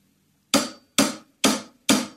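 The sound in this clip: Closed hi-hat cymbals give four short, crisp metallic chicks, evenly spaced about half a second apart, each struck sharply and dying away quickly into silence.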